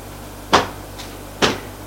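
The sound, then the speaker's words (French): Sharp wooden bangs of a door being shut behind a man who is leaving after being told to get out: two loud, abrupt slams about a second apart, with no talk. “Il reste penaud et ferme la porte derrière lui.”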